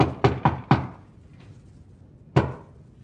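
Knocking on a wooden cupboard panel from the inside: a quick burst of sharp knocks, then a pause and one more, each hard and dry with a short decay.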